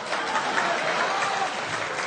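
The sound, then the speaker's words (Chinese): Brief, steady applause from many hands, an even, dense patter at moderate level from start to finish. “这还带掌声呢”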